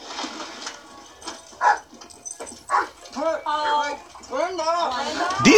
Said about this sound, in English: These dogs are not well trained at all, because every time a door opens up, they go flying 17 miles down the road.